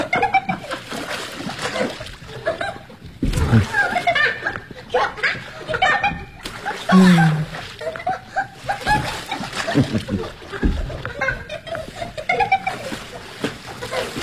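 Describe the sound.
Splashing water from someone swimming, with bursts of louder splatter, laughter and chuckling, and voices talking over it.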